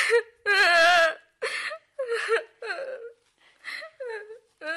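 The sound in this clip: A woman cries while talking about her mother and the danger of infection, in several bursts of high, wavering sobbing and whimpering separated by short pauses.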